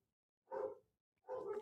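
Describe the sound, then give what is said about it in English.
Two loud dog barks, each a short, rough burst separated by about half a second of silence, with no other sounds or voices around them. “It's typically what they're barking at. There's nobody delivering anything. They're just barking for the sake of barking.”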